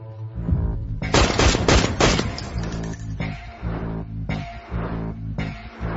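Gunfire sound effect: a dense, rapid burst of loud shots rattles out, followed by several separate heavy blasts spaced at irregular intervals, with no voices.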